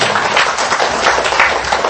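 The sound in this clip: Clapping from an audience at a Buddhist gathering, welcoming a professor: a loud, continuous mass of hand claps holding steady for the whole stretch.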